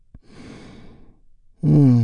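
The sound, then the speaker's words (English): A deep, releasing breath let out as a soft, airy rush for about a second, with no talk over it; a louder voiced tone cuts in sharply at the end. “deep healing breath with me right now. Here we go. And release.”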